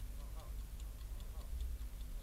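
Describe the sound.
Faint, steady ticking of an alarm clock in a mountain hut buried under avalanche snow: many quick, evenly spaced light ticks over a low, dull background hum.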